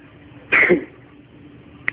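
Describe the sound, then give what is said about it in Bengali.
A single short cough from a person, one brief rough burst alone over faint background hiss. “প্রত্যেক কথার আগে একবার করে কাশি দিচ্ছে।”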